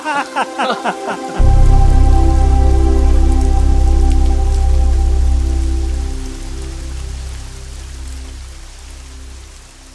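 Rain falls in a heavy, dense patter that swells in suddenly after a short run of plucked tones, while sustained musical notes carry on above the downpour and ease off toward the end.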